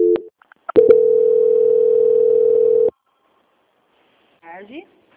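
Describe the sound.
A telephone tone sounds during a call transfer: a short tone, a couple of clicks, then a steady, loud, mid-pitched tone lasting about two seconds. After a pause, a brief fragment of a voice comes on the line.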